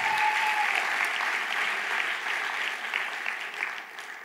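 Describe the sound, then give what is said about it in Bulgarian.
Audience applause fills a church service as performers return to their seats: dense, steady clapping with no talk, thinning slightly toward the end. “Нека им ръкопляскаме, докато сядат.”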